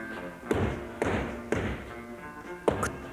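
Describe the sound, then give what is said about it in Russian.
Knocking on the door of a train sleeping compartment at night: four dull thuds, the first three evenly spaced about half a second apart and the fourth after a longer pause, over a steady background hiss. “Стук в дверь.”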